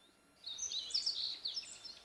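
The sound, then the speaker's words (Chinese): A small bird chirps on a balcony: a fast stream of thin, high chirps and tweets that starts after a short quiet moment and carries on steadily at moderate loudness, with no talk. “你有没有听到有小鸟叫的声音？ 嗯，好像在阳台上。”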